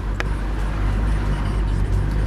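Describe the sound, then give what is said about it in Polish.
Low engine and road rumble from a car driving around the town of Koronowo, a steady, unbroken drone. “No i tak sobie jedziemy po tym Koronowie, kręcimy się tutaj.”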